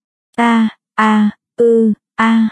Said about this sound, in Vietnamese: Tiếng nhóp nhép, tiếng rên rỉ dồn dập vang vọng cả căn nhà.